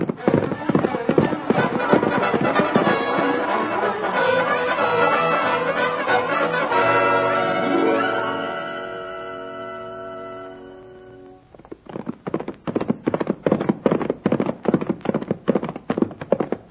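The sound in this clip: Horses galloping as riders ride on, one of them a horse named Topper. Rapid rhythmic hoofbeats open and close the passage, with a sustained tonal stretch in between where the hoofbeats fade under it.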